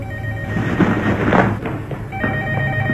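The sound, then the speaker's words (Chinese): A telephone rings loudly and continuously over a noisy background, its bell-like tone sustained throughout with no pause. “小雨以为是阿琴打来的电话，便跑了过去。”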